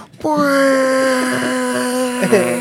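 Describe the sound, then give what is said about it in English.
Voice imitating a long bus horn, one steady, flat-pitched droning tone held for over two seconds, with a small bump near the end. “Dude, just when I was leaving Salt Lake, their bus driver. I've never heard anyone lay on a horn for so long. It was a solid 30-second horn.”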